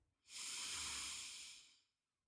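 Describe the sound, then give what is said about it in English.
A single deep inhale through the nose, a soft, hissy breath that swells quickly, holds for over a second and then fades, heard alone and faintly. “Inhale through the nose.”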